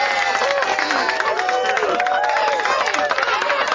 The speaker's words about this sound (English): So that's the voices that you hear in the background. Got a live audience. Everybody, we're on live BBS Talk Radio. Everybody make some noise.